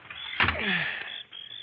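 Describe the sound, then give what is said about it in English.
A room window being opened: a continuous sliding, grinding scrape that starts abruptly, carries on for most of a second with a brief downward-sliding tone, then eases off. “It's stuffy in this room. I'll just open the window.”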